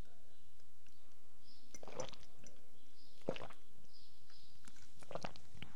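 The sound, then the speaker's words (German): Someone swallowing an allergy tablet makes a few faint, wet mouth sounds: soft gulps and clicks spaced out over quiet background hiss, with no talking. “So, Allergietablette genommen.”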